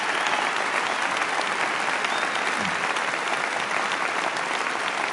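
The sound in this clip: Steady, dense audience applause welcoming Governor Mitt Romney, a loud continuous wash of clapping that holds at an even level throughout.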